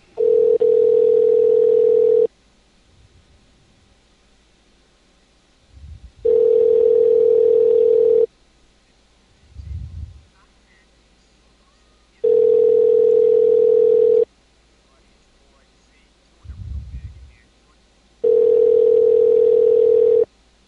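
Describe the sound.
Repeating telephone tone as a call to a guest is placed: four steady, mid-pitched tones of about two seconds each, separated by longer silent gaps that hold a few faint low thumps.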